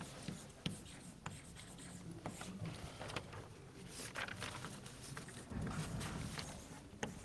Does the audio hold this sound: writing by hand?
yes